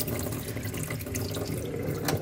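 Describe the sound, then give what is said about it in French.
Three decilitres of water pour onto a mix of flax, sesame and poppy seeds, a steady rushing splash with no break or voices. “On mélange bien toutes ces graines ensemble, voilà, et puis là, on va ajouter 3 décilitres d'eau.”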